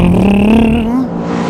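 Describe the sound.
A car engine revs as the gas is hit, a steady droning note that climbs gradually in pitch, then drops away near the end.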